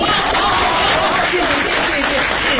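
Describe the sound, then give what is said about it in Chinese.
Loud, continuous applause from the audience of a live comedy stage show in Beijing, a thick wash of clapping blended with crowd noise that holds steady from start to finish. “谢谢大家的掌声啊。”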